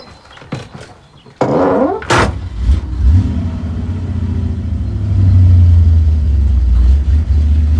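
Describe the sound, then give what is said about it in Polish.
A passenger car's underside scrapes over dried clay and stones on a deeply rutted dirt field track. A sharp knock comes early, then a low engine rumble builds and stays loud and steady to the end. “słyszę, jak brzuch samochodu ociera się o zaschniętą glinę i kamienie”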